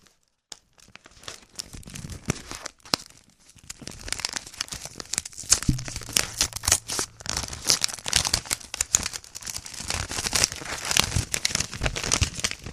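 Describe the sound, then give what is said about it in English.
Paper crinkling and tearing as a mailed letter envelope is ripped open: many dense, crackly rips and rustles that start after a quiet moment and continue steadily to the end. “We have one letter. Let's do some ASMR opening of the letter.”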